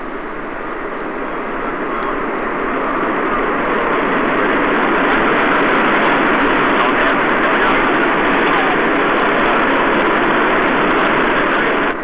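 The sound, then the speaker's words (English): Jet aircraft engine noise heard on board as the reheat (afterburner) comes on near the speed of sound: a dense, loud, steady roar that swells slightly over the first seconds, then holds constant. “Bump as the reheat comes on, and the Mach meter is now climbing”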